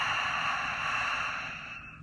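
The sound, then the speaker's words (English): A long, audible exhale after a held breath in a guided breathing exercise, a steady breathy rush that slowly fades over about two seconds. “Hold your breath for 4 seconds. Two, three, four. Audible exhale out. I want to hear it.”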